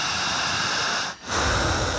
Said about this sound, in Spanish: Solo siga respirando.